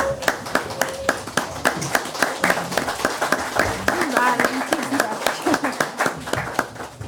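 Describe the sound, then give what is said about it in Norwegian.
Audience applause for a standing ovation after a talk: a few hands clap in a quick, regular beat of sharp snaps, with voices speaking over them. “Skal vi ta en stående applaus?”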